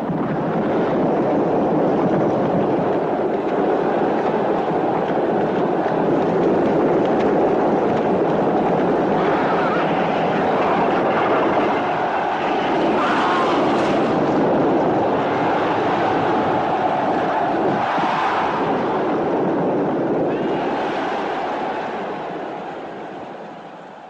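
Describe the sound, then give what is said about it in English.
A chariot race scene from a 1950s movie gives a loud, continuous rumbling roar that stays steady for about twenty seconds, then thins out slightly near the end, with no talk over it. “All right, let's play a little bit of the chariot race while we run out the 50s, and then we'll come back to starting with 60s.”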